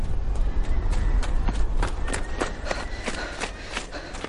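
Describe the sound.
Hooves of a horse-drawn carriage clip-clopping through mud in fog, many steady dull thuds under a constant broad rumble of movement and wheels, with no voices.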